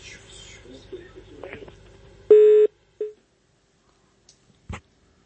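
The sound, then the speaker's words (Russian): Telephone beeps follow a dropped call: after soft, murmured talk comes one short, loud mid-pitched tone and a briefer, fainter one, then near silence broken by a few small clicks. “Вот у нас сорвался звонок, простите, но это не по нашей вине.”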